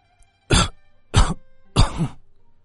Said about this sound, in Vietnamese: Lão Hoàng đế cười hiền hậu, nhưng lại dẫn đến một trận ho khan.